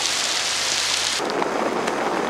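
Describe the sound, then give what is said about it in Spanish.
Steady rain pours outdoors, soaking hair and clothes, a dense, even hiss that holds at constant loudness throughout with no voices. “La lluvia moja su pelo y su ropa.”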